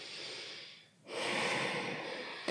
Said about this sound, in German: Und jetzt ganz tief ein- und ausatmen.